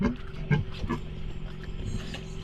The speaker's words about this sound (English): She's given birth to one really small piglet. She has no milk. And the piglet is in there just looking for a teat.